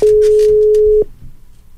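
A telephone ringback tone plays while a caller waits for an answer: one loud, steady, mid-pitched beep lasting about a second, then it cuts off, leaving faint background noise.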